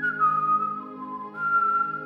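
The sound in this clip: A person whistling a call to a bird: sustained clear whistled notes that dip slightly in pitch midway and then return to the higher tone, alone with no talk.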